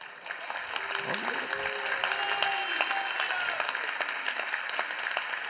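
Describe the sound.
Audience clapping without pause, a dense crackle of many hands, while voices talk and call out over it.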